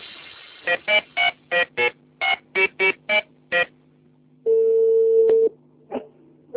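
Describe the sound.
Telephone dialing tones beep in a quick series of short bursts while a call is being connected. They are followed by a single steady, longer tone lasting about a second, then a few faint clicks.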